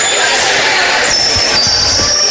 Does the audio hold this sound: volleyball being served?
yes